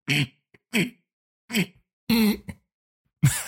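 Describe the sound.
A voice imitates a guttural, involuntary throat-clearing noise made at the back of the throat with the tongue pushed up toward the roof of the mouth: a series of short, rough, rasping bursts separated by brief silences, with no talk.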